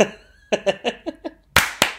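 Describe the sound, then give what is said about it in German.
A group claps together on a shared count. Short vocal sounds come first, then two sharp, loud clap bursts land close together near the end. “Okay, 25, 10 klatschen wir. Macht euch bereit.”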